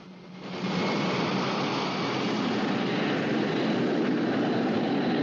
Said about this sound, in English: looks back at the jet as it taxis along the tarmac and prepares for takeoff.